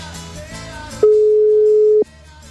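A telephone ringback tone plays on a call: one loud, steady, mid-pitched tone lasting about a second. It starts and stops abruptly over quieter background sound.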